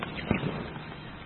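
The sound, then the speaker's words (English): A single gunshot rings out as a crowd disperses during a confrontation with police. It is one brief, sharp, muffled crack over a steady background hiss. “There was just a shot fired, and people are kind of dispersing.”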